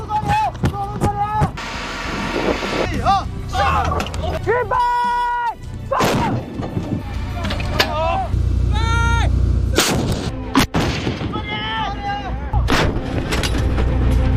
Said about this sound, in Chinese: 多轮射击连贯实施。几番火力打击过后